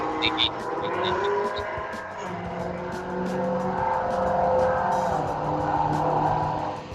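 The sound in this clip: Cars race on a nearby interstate, and a continuous engine roar with shifting pitch fills the whole clip. It swells and eases slightly, and a few thin high squeals come near the start.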